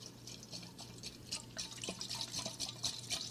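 Water and oil slosh faintly inside a jar as it is shaken, giving a soft, quiet run of liquid splashes and drips.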